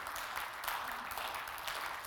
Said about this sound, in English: And we applaud that, and we're so glad for you.